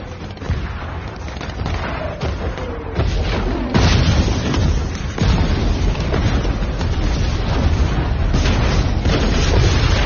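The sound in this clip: Bomb explosions: loud, continuous rumbling roar with a few heavier booming bursts that jolt the level upward, sustained and dense throughout with no voices.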